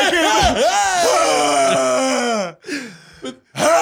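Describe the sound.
A voice imitates hard gasping crying: a long wavering wail that slides in pitch, broken by short sharp gasps before the sobbing resumes.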